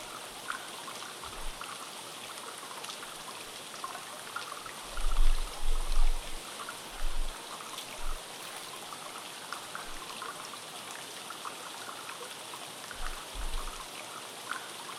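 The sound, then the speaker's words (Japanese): Hot spring bath water flowing outdoors in cool air, a steady, continuous hiss of trickling water with a few soft low bumps underneath. “確かに良い湯加減ですね。少し肌寒い外気に触れながら入る温泉はとても気持ちよく感じます。”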